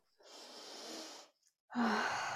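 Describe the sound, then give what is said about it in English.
A deep breath taken during a group coaching session: a long, soft, airy inhale of about a second, a short pause, then a louder breathy exhale with a faint voiced sigh at its start. “Everyone take a deep breath.”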